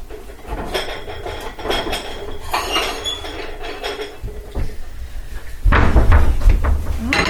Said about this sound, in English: Now, I might get a little plate and put those cubed nachos on it.